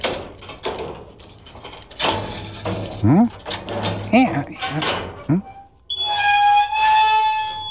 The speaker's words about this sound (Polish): To furtka, proszę pani, była to, co usłyszeliśmy, bo ja w porannym treningu szarych komórek o furtkę pytać będę. Taką furtkę.